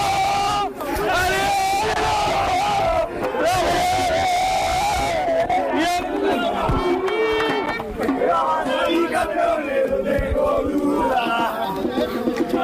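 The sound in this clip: Football fans of Madrid celebrating in the stands, a loud crowd chanting and yelling together in sustained waves, their voices merging into a continuous roaring din.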